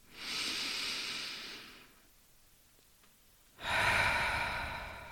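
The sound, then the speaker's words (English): Two long, airy breaths of deep breathing during a guided meditation, each a steady hiss lasting over a second and separated by a quiet pause, with no voice heard. “I want you to breathe and bathe your body in oxygen. And when you exhale, let go of all the air. Let's do two more breaths together.”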